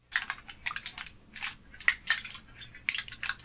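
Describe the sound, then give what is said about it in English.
Aluminum foil being wrinkled during a sound-guessing game, heard as many short, crisp crackling bursts in an irregular rhythm, fairly quiet, with no talk over it. “Somebody wrinkling aluminum foil, maybe. Yes!”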